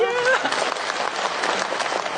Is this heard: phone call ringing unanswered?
no